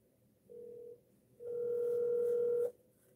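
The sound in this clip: Ringing tone of an outgoing telephone call: a short steady electronic tone, a brief gap, then a longer tone of just over a second, both flat in pitch, with no voices.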